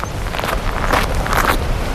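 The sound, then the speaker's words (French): Footsteps walk along a low heathland path among gorse on Belle-Île-en-Mer, a few soft scuffing steps under a steady, breezy wash of sea wind. “Voilà, nous sommes sur l'autre versant, marchant toujours parmi une lande basse.”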